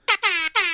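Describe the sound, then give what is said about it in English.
Jamaican air horn effect from a phone app, three loud blaring blasts, one short then two longer, bright and buzzy with rich harmonics, no voices. “The Jamaican air horn will never get old. I got an app, and like... I love it, and it's got some cool sound effects on it,”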